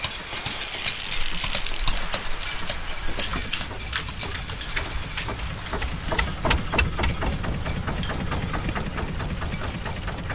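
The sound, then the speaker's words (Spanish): Boat engines idle and move through a harbour mouth. A steady low mechanical rumble runs throughout at moderate level, with many sharp clicks and taps scattered over it. “O al ir y venir de las embarcaciones en la bocana del puerto, que con los años se han ido modernizando, y con ellas sus sonidos.”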